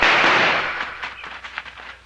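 Gunfire in a radio-drama shootout as a driver fires during a holdup: a loud blast rings out and decays, then several sharp, quieter shots crack in an irregular run.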